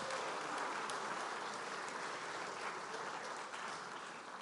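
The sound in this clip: Sustained audience applause welcoming a speaker onto the stage: dense, even clapping that stays steady and fairly loud for the whole stretch, with no voices standing out.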